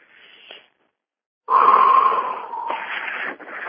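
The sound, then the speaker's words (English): A deep breath drawn in from the abdomen: a brief soft breath, a pause, then a loud, airy inhale lasting about two seconds with a faint whistling wheeze. “And when I meditate, I take my deep breath in from my abdomen.”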